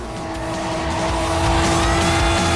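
Tires squeal as a van swerves across the road: a loud, continuous, rough squeal of skidding rubber over engine noise, growing slightly louder toward the end.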